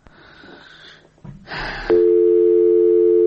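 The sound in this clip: Telephone line tone on a call that fails to connect: brief noise and a click, then a loud, steady electronic tone that holds unbroken for the last second and a half.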